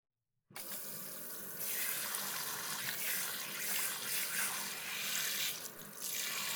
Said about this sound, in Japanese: そろそろ髪を流しましょう。